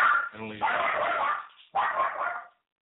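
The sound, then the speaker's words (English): A dog barks and whimpers in two bursts split by a short pause, starting with a high, wavering whine that breaks into yipping, yelping barks. “That's my mother-in-law's dog who we're watching for the weekend.”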